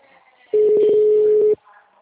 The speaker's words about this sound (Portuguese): Por favor, aguarde. Estamos transferindo sua ligação.